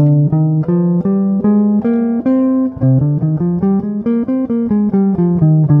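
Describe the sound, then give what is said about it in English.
A C natural minor scale played on an instrument in a repeating 1-2-3-5 note pattern. Many clear, evenly spaced pitched notes follow one another briskly and steadily, heard alone without speech. “So C natural minor sounds like this.”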